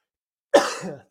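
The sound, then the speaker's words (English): A person with a lingering cough lets out a single harsh, abrupt cough that is loud and tails off within half a second, alone after silence. “Bear with me. I've still got a little bit of a cough and things like that.”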